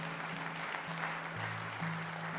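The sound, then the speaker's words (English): A church audience's hand clap of praise at a Christmas morning service, a faint wash of clapping running throughout, with steady low held tones shifting pitch beneath it. “Can you give a hand clap of praise to the Lord this morning?”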